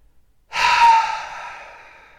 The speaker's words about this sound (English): when you have a really good exhale, you're like,